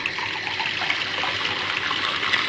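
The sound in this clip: Water is poured into a drink mixed with lemon. It makes a continuous, fairly loud splashing trickle, steady for the whole moment with no talk.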